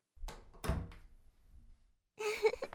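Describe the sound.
A door is shut with a couple of dull thuds, followed by a brief burst of voice, as a pizza delivery arrives at the door.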